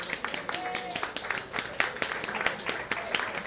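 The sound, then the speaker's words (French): Audience applause at an evening talk on environment and biodiversity, a steady patter of many hands clapping with sharp irregular peaks, fairly soft, with a voice speaking over part of it. “Madame Sandrine Richard, experte environnement, qui se lève et que je vous invite à applaudir”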